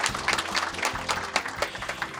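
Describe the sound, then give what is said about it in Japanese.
An audience applauds to welcome a company chief executive onstage at a corporate investor presentation. Many hands clap steadily and fairly quietly in a dense, even patter for about two seconds, with no voices standing out. “皆さん大きな拍手でお迎えください。”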